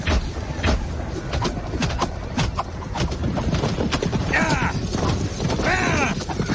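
Horses' hooves clip-clop densely and loudly as horses balk at crossing a trench during a battle with archers, the many quick, overlapping strikes forming a continuous rough clatter.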